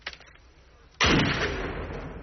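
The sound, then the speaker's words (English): A single loud gunshot from a fired weapon cracks out abruptly, then a long, heavy rumbling decay fills the rest of the moment. “Discharge your weapon. Discharge your weapon. Do it!”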